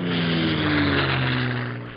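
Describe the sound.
A propeller aircraft drones steadily at an air show, a loud, even engine hum with strong low harmonics that holds throughout and eases off slightly at the end.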